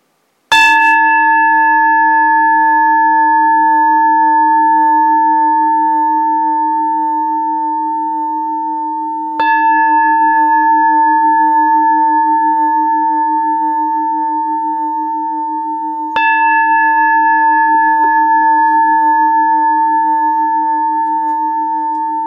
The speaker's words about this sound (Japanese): 鐘を3つ鳴らしますから、鐘の音に注意を集中してください。